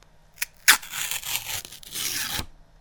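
Paper ripped apart: a couple of short sharp snaps, then one continuous rasping tear lasting about a second and a half before it stops abruptly.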